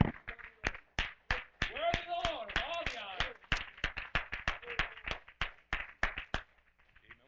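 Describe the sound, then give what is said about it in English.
Applause for the Lord at a worship gathering, many sharp hand claps in a steady rhythm, with voices cheering briefly partway through before the clapping thins out. “Hey, let's give the Lord a round of applause.”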